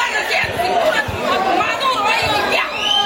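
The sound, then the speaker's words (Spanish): Crowd at a football match reacting, a loud and steady murmur of many voices chattering together with no single voice standing out. “la reacción del público.”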